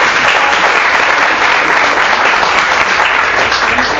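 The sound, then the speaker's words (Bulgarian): Loud audience applause fills the whole stretch, a dense, uniform roar of many hands clapping at a steady level without a break. “Още веднъж аплодисменти за Кристина Илиева.”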